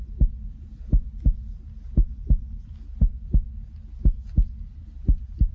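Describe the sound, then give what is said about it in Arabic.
Heartbeat sound effect: a steady series of deep lub-dub double thumps, roughly one pair per second, repeating evenly over a low droning bed with no voices. “دقات القلب أهو، يلا السرعة.”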